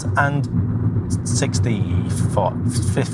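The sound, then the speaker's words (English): Steady low road rumble inside a moving 2015 Skoda Fabia Estate car, with people talking throughout over the constant engine and tyre drone. “But yeah, we're in my car. Yep. And we're travelling to do a podcast.”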